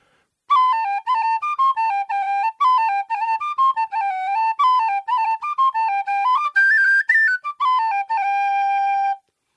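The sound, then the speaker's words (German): A wooden tin whistle made of palisander (rosewood) plays a lively melody of many clear, pure notes, stepping up and down in quick runs with short breaks between phrases, heard alone. “Jetzt die Grenadillflöte gewesen, Whistle, ja, Grenadillwhistle. Und jetzt eine aus Palisander, die gleiche Bauart, nur ein anderes Holz.”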